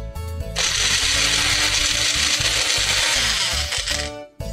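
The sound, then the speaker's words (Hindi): Electric grinder blending pickle ingredients with salt: a loud, steady motorized whir that starts abruptly, runs for about four seconds, then cuts off. “इसमें भी थोड़ा नमक डाल के पीसेंगे सारी चीज़ों में नमक आ जाए पिकल है तो नमक तो चाहिए”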